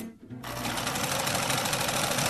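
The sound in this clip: A sewing machine stitches fabric, starting abruptly after a brief quiet moment and then running as a fast, even, buzzing mechanical whir of the needle that stays loud and continuous.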